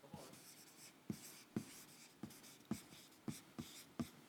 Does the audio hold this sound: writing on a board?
yes